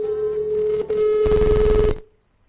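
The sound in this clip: A telephone rings as a call is dialed live during a radio call-in: a steady electronic tone, joined midway by a louder, buzzier burst, then cut off abruptly shortly before the end, leaving silence.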